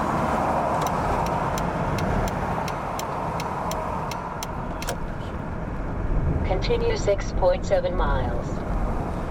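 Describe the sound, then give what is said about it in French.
Steady road and engine rumble of a luxury rental limousine driving out of an airport, with a fast regular ticking over the first half and voices speaking near the end. “Alors là, on sort de l'aéroport dans une luxueuse limousine, un véhicule tel que TSF était susceptible de nous en offrir un. Un véhicule de location”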